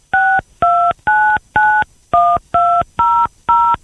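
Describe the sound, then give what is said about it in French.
A telephone keypad dials eight DTMF tones into a call-in line. The beeps are loud, steady and evenly spaced, each a short two-note chirp, with brief gaps between them and no voices. “C'est peut-être le numéro que vous venez de composer, je ne sais pas. Je n'ai pas la possibilité de reconnaître les tonalités des TMF, c'est comme ça que ça s'appelle.”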